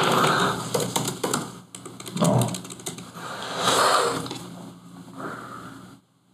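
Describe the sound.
Rapid clattering keystrokes on a computer keyboard as an NFL player's name is typed in, arriving in uneven bursts of taps with short pauses between them.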